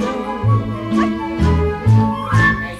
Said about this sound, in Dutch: En het is een ontzettend cute liedje door dat kleine hondje wat er blaft.